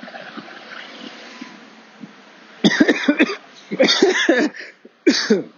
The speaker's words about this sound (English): Excuse me. I'm choking on my own spit.